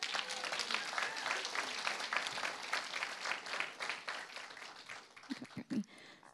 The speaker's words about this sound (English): Everybody give them a hand.